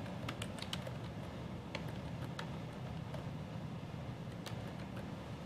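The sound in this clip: Faint typing on a computer keyboard: many light, irregular key clicks over a low background hum.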